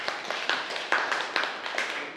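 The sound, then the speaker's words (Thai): Classroom clapping for a student, a group of hands striking in a fairly regular rhythm, with a few sharper accents standing out over lighter scattered claps at modest volume. “ปรบมือให้เพื่อนหน่อยครับสุดยอด”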